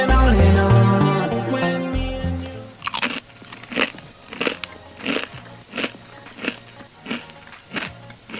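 Crisps or biscuits being bitten and chewed during a flavour tasting, with many sharp crackling crunches in a steady chewing rhythm, preceded by a few seconds of musical tones.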